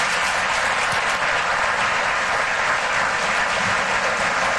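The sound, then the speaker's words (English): Sustained audience applause at a business forum in New York: dense, even clapping that holds steady at full strength for the whole stretch, with no pause. “So let's give them a big round of applause.”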